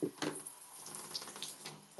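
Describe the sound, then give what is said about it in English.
Water running from a tap into a bathroom sink for face washing, a faint, steady splashing hiss with small fluctuations throughout. “I just have to get my face washed from my sink.”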